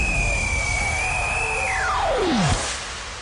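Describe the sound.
A jet plane taking off, as a sound effect: a broad roar carries a steady high whine, which then sweeps sharply down in pitch to a low point before the roar fades a little.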